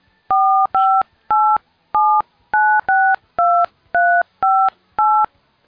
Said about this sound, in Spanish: Espérate, vamos a llamar a la, la consulta del doctor